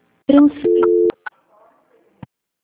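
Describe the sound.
Telephone tone during a call transfer: a steady electronic tone lasting under a second, followed by a few brief clicks and faint noise.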